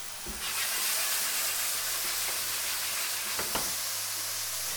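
Steady sizzling hiss of onions and mushrooms frying in a pan for a gnocchi dish, continuous and bright, with a couple of faint brief clicks and no talk.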